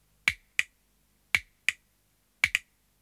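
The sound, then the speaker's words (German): Six sharp metallic clicks from a tin frog clicker toy as its small metal spring is pressed and released, arriving in three quick pairs separated by short pauses, crisp and bright against silence. “Das ist ein Blechfrosch oder Knackfrosch. Ihr kennt ihn sicher. Unten ist so eine kleine Metallfeder, mit der es sich wunderschön knacken lässt.”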